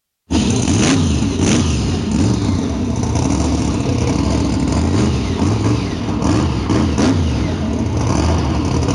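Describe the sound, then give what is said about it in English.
A monster truck engine revs hard at a touring monster truck event, a loud, continuous roar that bursts in at the start and keeps going with no pause, surging a few times. “Oh, yeah, you know what that sound means. Well, I guess it could be a lot of things. But that's the sound of, well, in particular, that's Northern Nightmare. The Canadian representative on the Monster Jam tour.”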